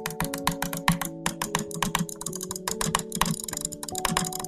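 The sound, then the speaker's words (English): Fast clicking on a computer gaming mouse: a rapid, dense run of many sharp clicks in quick succession, fairly steady and loud throughout. “So, normal people, they try to click so fast, and it sounds like this.”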